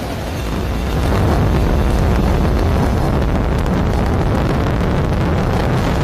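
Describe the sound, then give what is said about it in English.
A SpaceX Falcon Heavy rocket roars as its 27 Merlin engines lift it off carrying the Roman Space Telescope, a deep, loud, dense rumble that swells after the first second and then holds steady. “Looks like a beautiful launch so far, Steve. Great shot there from on top of the rocket looking down, and then now tracking up, looking at those 27 Merlin engines lifting the Falcon Heavy and Roman Space Telescope off into space.”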